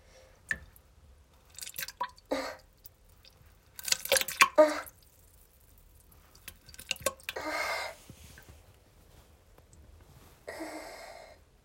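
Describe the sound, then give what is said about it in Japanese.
Urinating into a toilet: irregular spurts of splashing and dripping liquid, some brief and some longer-lasting, fairly quiet with gaps of near silence between them. “おしっこも出るかな。出します。”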